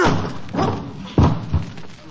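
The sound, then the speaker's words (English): People throwing themselves against a locked door produce two dull, heavy thuds after a stretch of voices, the first impact louder than the second. “It's locked. You're crazy. Why would anybody lock a door in broad daylight? All we have to do is throw ourselves against it. Okay. One, two, three.”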